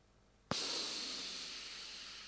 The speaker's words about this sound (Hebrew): תוציאו אוויר, תיכנסו, תרגישו את הנשימה באף, ותתחילו עם זה שיש רק אותי עכשיו כאן נושם.